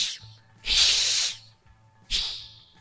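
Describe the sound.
A voice imitating an animal's hiss, from an unseen furry creature among boxes. Two long, loud, breathy hisses, the first longer than the second, with a short pause between them.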